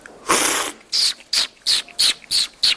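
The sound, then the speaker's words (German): Loud hissy slurps from a tasting of Ecuadorian coffee from Vilcabamba in southern Ecuador, done by a Hamburg coffee trader. One long slurp is followed by six short, sharp sucking bursts in a quick, even rhythm. “Wir probieren jetzt hier einen Kaffee aus Ecuador, aus dem südlichen Ecuador, aus einem besonderen Ort namens Vilcabamba.”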